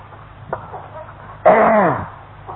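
A chicken gives one loud, harsh squawk that falls in pitch and lasts about half a second, after a faint click and low background murmur.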